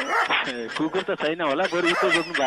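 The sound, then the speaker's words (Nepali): A person imitates a barking dog with many quick, pitched yelping bursts in an uneven rhythm, fairly loud throughout. “कुकुर त छैन होला, कुकुर कराइरहेको छ”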